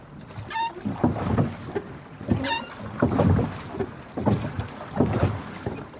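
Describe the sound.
A rowing boat moving on water: a steady rhythm of oar strokes with splashes and knocks, plus a couple of brief high squeaks early on, over a wind-blown background.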